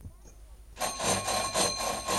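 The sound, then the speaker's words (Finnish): A doorbell rings at a house late in the evening, a bright, buzzing metallic ring that starts suddenly after a quiet moment and keeps pulsing loudly in even swells until the end. “Mä menen, mun on soitettava ovikelloakin.”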